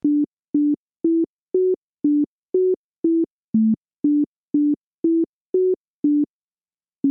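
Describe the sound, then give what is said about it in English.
Yankee Doodle played as a plain electronic melody, about thirteen short, evenly spaced beeps kept within one octave, each note a clean, steady tone, with small pitch steps up and down and silence between notes. “You know what it is. Yeah, indeed, it's Yankee Doodle.”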